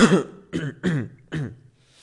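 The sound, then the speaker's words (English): A person with a persistent cough they cannot hold back gives four harsh, throaty coughs in an uneven series, the middle ones loudest. “I'm sorry for inconvenience, but I can't stop my cough. I can't hold it, man.”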